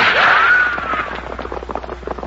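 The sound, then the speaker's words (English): A gunshot rings out at a party of horsemen in a Western setting, carried on a whistling ricochet whine that rises briefly and then bends downward as it fades into softer scattered noise. “Hey, what's the idea? Who do you think you're shooting at?”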